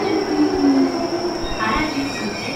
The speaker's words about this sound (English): Okay. Our train is here. Again, it's very, very quiet.